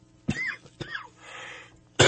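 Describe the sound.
A harsh coughing fit: three sharp, explosive coughs with raspy voiced tails, and a breathy throat-clearing rasp between the second and third.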